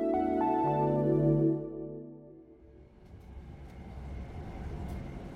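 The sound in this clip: A train travelling and arriving at a station: a tonal mechanical whine over a steady hum fades after a couple of seconds into a low, rolling rumble that continues to the end.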